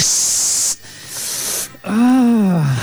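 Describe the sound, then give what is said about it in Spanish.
Eggs sizzle as they hit a very hot frying pan with oil, giving loud, bright hissing in a couple of bursts. “Cuando esté el sartén bien caliente, ponga sus huevos en el mismo. Ah, en un sartén ardiendo con aceite.”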